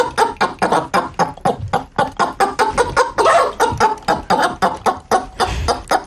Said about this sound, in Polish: A kogut, on sprawuje nad tym wszystkim pieczę. On czuwa i tutaj to wszystko słychać w tym jego gdakaniu.